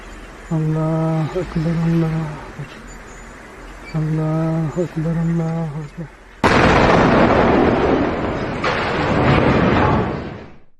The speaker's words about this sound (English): What you're about to see is a Humvee getting blown to hell. This is by an IED going over and striking a Humvee.